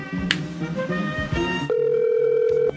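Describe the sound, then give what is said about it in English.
Telephone ringing tone of an unanswered call to a hotel room: after a dense, noisy stretch, a single steady, even tone holds for about a second. “Well, she ain't answering the phone tonight. She don't want to pick up.”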